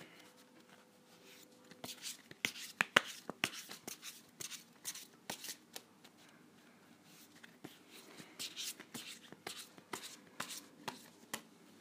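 Tarot cards are shuffled in many faint, irregular clicks and soft riffling flicks, bunched in quick clusters with quiet gaps between them.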